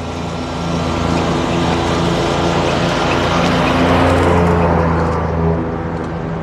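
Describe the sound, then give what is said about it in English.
Street traffic on an urban bicycle commute on Ride Your Bike to Work Day, a loud, continuous engine drone with steady low tones that eases slightly near the end. “audio texture of the urban bicycle commute. It is. Yesterday was Ride Your Bike to Work Day.”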